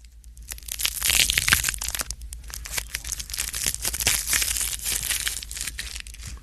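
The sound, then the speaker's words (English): Halloween ASMR of a Blow Pop lollipop being unwrapped: close, continuous crackling and crinkling of the wrapper, many small rustles in a dense stream with no talk. “Pete Wentz sat down to do a little Halloween ASMR with a blow pop. A blow pop.”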